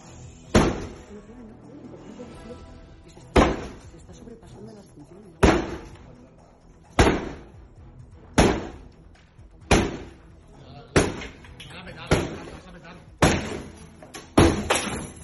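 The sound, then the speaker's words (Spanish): Police kick at an apartment door during an illegal party in the pandemic: about ten heavy, booming thuds with sharp cracks land at uneven intervals and come more often toward the end, while voices talk underneath. “50 segundos más tarde, la puerta ya está en el suelo, patada mediante de los agentes.”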